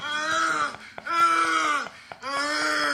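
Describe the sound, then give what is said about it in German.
A man moans in three long, drawn-out voiced groans, each separated by a brief break. The moans are loud and heard alone, with no other sound. “Bist du sicher, dass es der Mann ist, der da stöhnt und nicht die Frau?”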